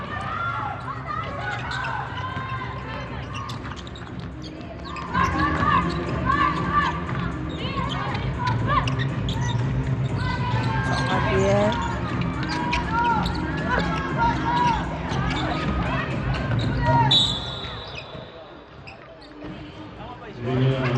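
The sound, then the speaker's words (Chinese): A basketball is dribbled during a game against a Japanese team applying a full-court press. Rhythmic bounces and squeaking sneakers run through crowd noise, with voices talking continuously over the play. “石天佑真的运球有一个很特别的节奏哦， 就是你要去预测他的什么时候要停球，其实蛮难的。”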